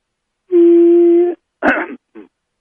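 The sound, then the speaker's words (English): A person coughs once with a sharp, rough burst, then makes a brief, quieter throat-clearing rasp. A steady hummed vocal tone comes before both sounds. “let me do that again without the cough. I got to clear my throat just a second.”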